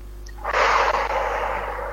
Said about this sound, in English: So let's start. Let's inhale confidence. Inhale